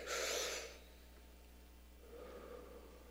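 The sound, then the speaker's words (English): An audience draws a big deep breath in together, a soft, airy rush lasting under a second, followed by quieter breathing and a faint second breath sound near the end. “Would you just take a big deep breath in?”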